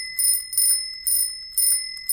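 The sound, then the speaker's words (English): A bicycle bell rings five times in an even rhythm, each bright metallic ding decaying quickly. The bell sounds alone, with no talk. “So let's ring that bike bell”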